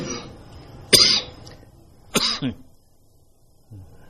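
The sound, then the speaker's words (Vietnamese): Two harsh coughs from a monk who has been ill for several days during a Buddhist dharma talk. The second cough has a quick follow-on and a throaty edge, and a faint sound follows later. “Tôi không phải là có thói quen ho, từ mấy ngày nay nó muốn bệnh rồi ho, không có thói quen ho.”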